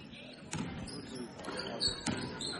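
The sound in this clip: A basketball dribbled on a court during a boys' high school game, with a few separate bounces spaced apart, faint beneath a commentator's voice and crowd noise.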